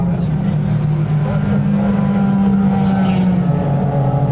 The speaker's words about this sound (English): There go all the LMP1s, here's the LMP2s and the Corvettes. That's the first Porsche 911.